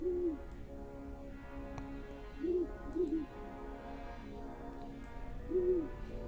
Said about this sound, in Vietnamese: tiếng con chim cú lợn kêu lên làm cho người ta lạnh cả gáy.